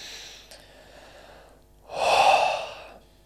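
A person takes a deep breath: one long, loud, airy breath swells and then fades over about a second, after a softer, quieter breath earlier on.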